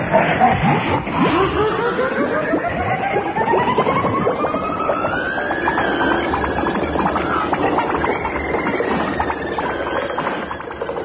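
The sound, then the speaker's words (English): Comedy sound effect of a wall being driven at speed like a vehicle: a loud, continuous whirring roar whose tones sweep steadily upward in pitch through the first half, then hold high and level to the end. “The sound you are hearing is Neddy and Eccles driving a wall at speed.”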